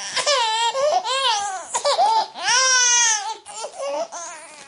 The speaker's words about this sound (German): Den Jingle lieben wir alle.